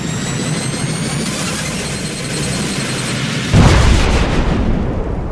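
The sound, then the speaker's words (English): An ear-piercing energy beam blast sound effect roars loudly and continuously, with thin high whining tones over a dense rumbling wash. Later a heavier booming burst strikes and the roar carries on. “suddenly she points her hand up and this huge, like, ear-piercing beam shoots out of her hand, hitting the king directly.”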